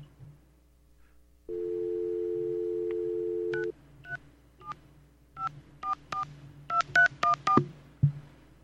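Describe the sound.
A telephone number is dialed: a steady dial tone holds for about two seconds, then many short touch-tone beeps follow in an uneven, quickening sequence at moderate loudness.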